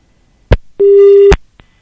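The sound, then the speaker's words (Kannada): A short telephone busy tone of about half a second sounds after a call is cut off. Two sharp clicks bracket it, one just before and one as the tone ends, and no talk is heard. “ಕರೆ cut ಆಗಿದೆ.”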